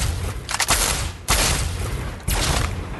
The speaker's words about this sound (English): Oh, this is a shooting range. Okay, shooting range.